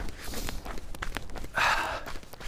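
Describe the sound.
Running footsteps from a jogger speeding up and lifting the knees higher: a rapid, steady series of soft footfalls, with a loud breath partway through.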